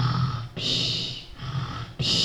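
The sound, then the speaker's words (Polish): Snoring from someone asleep on a sofa: low rumbling snorts alternate with hissing, whistle-like exhales, the pattern running through about two cycles at moderate loudness. “Na kanapie z kotem śpi i na zmianę chrapią.”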